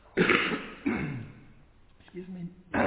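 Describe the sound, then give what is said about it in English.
Coughing and throat clearing come in a few harsh, rough bursts separated by quieter breathy gaps, with the last burst starting just before the end. “Apart from coughing.”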